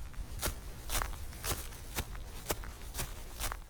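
Footsteps crunch across sand in seven steady, evenly spaced steps about half a second apart, fairly quiet and alone with no voices.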